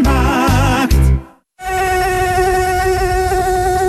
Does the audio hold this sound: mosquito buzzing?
yes